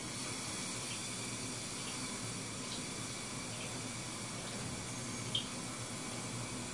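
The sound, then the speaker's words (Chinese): Boiling water poured onto a cooled pot wall gives a faint, steady hiss of pouring liquid that holds unchanged throughout, with one small tick near the end. “水开之后，我们录制一下这个倒水的声音，开水与这个锅底这个发出的一种”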